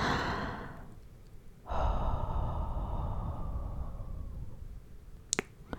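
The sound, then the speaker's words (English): Gentle hot breath is blown into an ear in two long, soft, airy exhales, each fading slowly, followed by a few sharp little clicks near the end. “I move up to your ear and blow. Gentle hot breath against it.”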